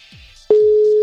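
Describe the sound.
A phone call's ringing tone starts halfway through as a single loud, pure, steady tone that holds to the end, after faint low rumbles.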